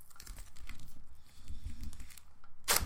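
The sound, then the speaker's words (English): Duct tape ripped off skin to wax hair: a short, harsh tearing burst near the end, after a stretch of faint rustling and handling noises. “What are you doing with that duct tape? I'm going to wax your beard.”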